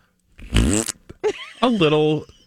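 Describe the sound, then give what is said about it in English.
A novelty fart bag toy lets out a loud, raspy fart noise, a buzzing blast followed by shorter bursts, with voices heard alongside. “something that's labeled fart bag sounds like this.”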